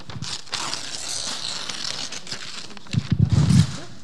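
Something is torn open with a rough, crackly rasp lasting a couple of seconds, followed by louder rustling and a few thumps.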